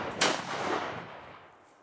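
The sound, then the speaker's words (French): A single sharp, loud blast from a culverin firing lead projectiles, followed by a long, rumbling tail that slowly fades away with no voices. “la couleuvrine, ancêtre du fusil, qui tire des projectiles de plomb à 200 ou 300 mètres en produisant un sifflement comparable à celui d'une couleuvre.”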